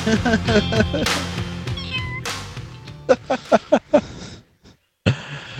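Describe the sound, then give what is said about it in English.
A small kitten meows in several high, short cries, some with wavering pitch, followed by a quick run of sharper bursts and a brief silence. “Little teeny kitty.”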